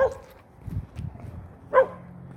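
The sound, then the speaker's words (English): A dog behind a house barks twice, each bark short and sharp with a ringing upper edge, the two spaced well apart, with low rumbling noise in between. “I have a dog back there. So somebody lives there.”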